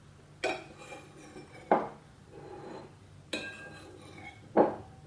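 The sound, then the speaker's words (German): Dishes clink at a meal as a plate is handed over: four sharp ceramic knocks, evenly spaced, each with a short ringing tail, and no talk. “Geben Sie mir bitte Ihren Teller, ja?”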